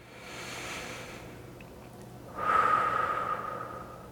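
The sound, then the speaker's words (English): Two slow, deep breaths taken during a calm breathing exercise: a long, soft first breath, then after a pause a louder, rougher airy rush with a slight nasal snort to it. “Here's a prayer and an exercise that you can use. One breath. Two breaths.”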